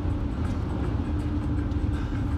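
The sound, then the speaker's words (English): A car driving on a road trip, heard as a steady low rumble of engine and tyre noise that holds even throughout, with no voices. “Drove. Yeah, we drove. We're driving right now.”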